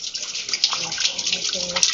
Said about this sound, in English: Pilgrims come to the mosque to collect holy water in preparation for the upcoming Shiite festival of Arba'in.